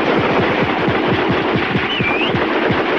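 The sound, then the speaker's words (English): Rapid gunfire from a squad shooting from a line on a snowy ridge, many loud sharp shots in quick, steady succession throughout, with a brief thin whistle partway through. “The squad lets loose from their line on the ridge, scattering the defenseless Germans. Shots flash as shells fly from rifle breaches.”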